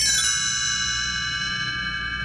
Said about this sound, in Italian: Quando sentirai suonare un campanellino, così,